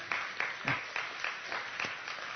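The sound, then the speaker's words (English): Audience applause at a church service after an anniversary is mentioned. Steady, moderately loud clapping runs the whole clip, with a few stronger bursts standing out. “you can clap for that if you want, okay?”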